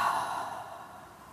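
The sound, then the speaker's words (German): One slow, breathy exhale through the mouth during a guided deep-breathing exercise, a soft airy whoosh that starts clearly and fades gradually over about a second. “Vielleicht magst du einmal durch die Nase einatmen und durch den Mund ausatmen.”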